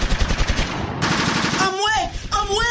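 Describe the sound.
Loud automatic gunfire with shots fired from all sides: rapid, tightly spaced bursts crackle in quick volleys, then give way to a dense, continuous roar with wavering tones above it.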